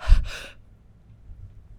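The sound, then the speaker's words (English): A voice acts out a quick breath pushed out and then sharply sucked back in, as a character does in a film. Two short, airy bursts pass in under half a second, followed by near silence. “you push the air out and then you suck it back in really fast.”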